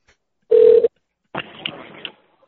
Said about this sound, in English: I've called 3 other Walmarts. 15 rings at least. First ring, you're on it.